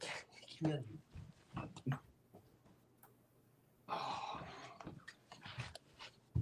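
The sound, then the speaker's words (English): A dog barks in short, intermittent bursts in the background while people talk. The barks are faint and mixed in with the voices. “sorry about the dog barking”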